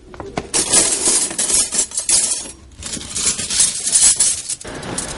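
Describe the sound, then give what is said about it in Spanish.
Silver cutlery clinks and rattles as a woman gathers the pieces and bundles them into a small cloth bundle, with many quick metallic chinks and jostles in an irregular, busy stream. “La mujer coge algunos de los cubiertos de plata que lograron llevarse de su casa y los mete en un atillo.”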